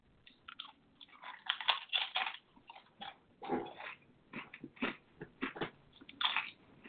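Chili-and-lime corn chips being crunched and chewed, with many loud, irregular crisp crunches in quick bursts and short pauses between bites.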